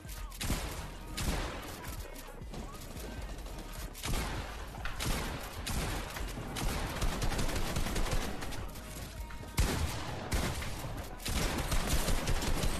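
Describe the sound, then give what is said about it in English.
Rapid video game gunfire during a last-minute build battle. Dense, loud bursts of shots pile into a continuous clatter that barely lets up across the stretch. “a player named Rubix loses the advantage in a last-minute build battle and ends up getting shot in the end”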